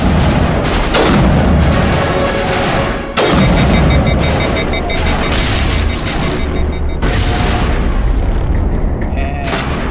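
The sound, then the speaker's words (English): Sniper rifle shots in the video game Mass Effect, fired at Geth enemies, come as a few sharp, booming reports over a loud, continuous wash of game noise. “there's a whole bunch of Geth downrange. So we're just gonna pull out our handy-dandy sniper rifle.”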